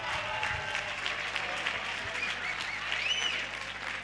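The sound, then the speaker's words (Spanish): An audience applauds a 13-year-old girl after she sings a Beyoncé song, holding a steady, dense round of clapping for several seconds. “que l'aplaudisquen, eh? Perquè ets supervalenta.”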